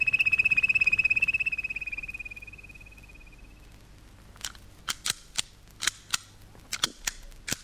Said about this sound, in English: What's that? It's a cowboy pistol. It's a child's pistol.